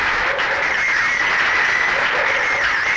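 A canned applause sound effect played during a radio show, steady and loud, a continuous wash of clapping for about three seconds with no talk over it.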